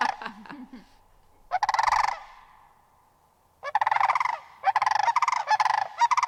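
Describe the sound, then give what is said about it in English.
Sandhill cranes give their unison call: loud, rolling, bugling calls in several bursts separated by short pauses, the last stretch a rapid run of repeated notes. No voices. “Or those Sandhill Cranes doing their unison call.”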